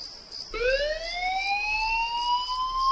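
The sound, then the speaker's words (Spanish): An emergency alarm siren sounds for a Tenerife fire brigade callout: a steady high tone, then a loud wail that starts low and climbs slowly, holding at a high pitch to the end. “Son las 4 de la madrugada. Suena un aviso. Alguien necesita ayuda en algún punto de la isla. Y mientras tú duermes tranquilo, Bomberos de Tenerife ya está en camino.”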